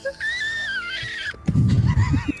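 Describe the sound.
A voice imitates a wounded gnoll squealing: a thin, high, wavering squeal held for over a second, followed by loud bursts of laughter.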